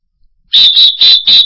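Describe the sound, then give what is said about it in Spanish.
A whistle blown in four quick, loud, shrill blasts of steady high pitch, evenly spaced and heard alone. “¿Saben lo que es un pito? Ese silbato que me regaló mi hermano afroamericano, digo afroamericano, Oscar Mosquera.”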